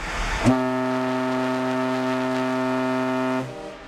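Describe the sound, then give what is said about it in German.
A Norwegian coastal mail ship, which sails the coast between Bergen and Kirkenes, sounds its horn: a short noisy burst, then one long, steady, deep toot rich in harmonics that holds for about three seconds before stopping abruptly. “Wir gucken jetzt mal oder wir hören jetzt mal, wie unser Schiff so klingt. Hier ist unser Tuten.”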